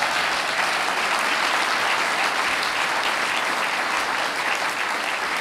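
An audience at the Mayflower Hotel in Washington claps in dense, steady applause, loud and unbroken for the whole stretch, with no voices over it.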